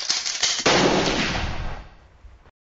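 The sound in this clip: A gunshot in an audio story, fired from a handgun, gives a sharp, heavy blast with a long, booming, decaying tail that cuts off abruptly into silence.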